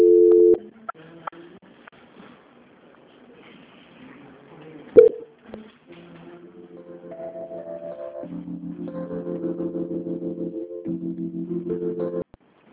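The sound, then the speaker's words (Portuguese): Telephone line tones during a call transfer: a few clicks, then a long run of repeated pulsed tones that shift between pitches, heard alone. “Só um minutinho que eu vou transferir novamente para ver se a gente consegue, tá bom? Transferência.”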